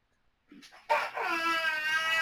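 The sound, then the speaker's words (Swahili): A baby cries: a few faint whimpers, then a sudden loud, high-pitched wail that holds steady and strained to the end. “mama yake mtoto yeye angalie, kwani analia, nenda kumwangalia, mtulize, yani mtulize, nenda kumtulize, ujue kwani analia.”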